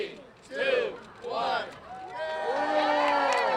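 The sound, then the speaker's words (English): Crowd voices and cheering at the opening of a new emergency homeless shelter in Watts, Los Angeles, with overlapping shouts that swell in loud bursts and then settle into a sustained, lively hubbub. “That's the sound of a new emergency homeless shelter opening in L.A.'s Watts neighborhood yesterday.”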